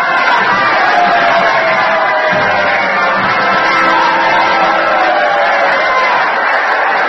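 A theater audience cheers and roars as the president, Mr. Lincoln, arrives in his box, a steady, dense wash of crowd noise that holds at an even level throughout.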